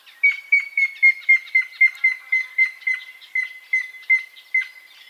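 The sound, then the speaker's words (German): A grey-headed woodpecker gives its clear whistled call, a long series of loud, evenly pitched notes whose gaps widen toward the end while the pitch sinks slightly, sounding hesitant against silence. “Lachstrophe, die beim Grauspecht eher eine Pfeifstrophe ist, in der Tonhöhe gegen Ende ganz stark ab und die Abstände werden größer, sodass das zögerlich klingt, so als ob er am Ende ins Stottern kommen würde.”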